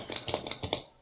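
A clicky pen is clicked repeatedly in a quick, uneven run of several sharp, bright little clicks. The clicks are fairly quiet and heard alone, with no talk.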